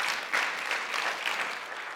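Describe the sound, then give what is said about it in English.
A round of applause from an audience: steady, moderately loud clapping that holds evenly for two seconds with no voices over it. “That ought to get a round of applause.”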